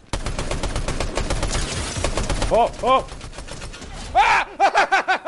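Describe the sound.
Gunfire in the Fortnite video game rings out in rapid, continuous bursts, then several separate loud shots, each followed by a short ringing tail.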